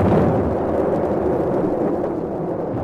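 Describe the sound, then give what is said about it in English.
A ship's starboard guns fire together during a naval engagement near a channel, making a heavy, continuous low roar of blasts that blend into one loud rumbling din without separate shots. “An infernal din of guns broke out as we approached the channel.”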